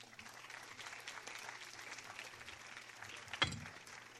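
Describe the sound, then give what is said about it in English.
Applause from a folk music audience for a left-handed banjo picker: steady, dense clapping that runs the whole time, with one sharp bump near the end. “old Skip is a left-handed banjo picker, so he has to string his banjo up backwards. Let's give him another hand.”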